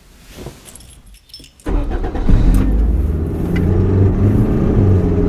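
A car engine starts after a few soft key-jangle clicks, then settles into a loud, steady, mid-pitched running hum as the car drives off.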